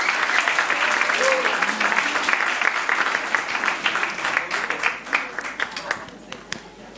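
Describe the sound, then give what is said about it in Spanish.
Applause from a church audience during an evening service, dense and steady clapping with voices mixed in, thinning and fading over the last two seconds. “démosle un fuerte aplauso a nuestro hermano Claudio López”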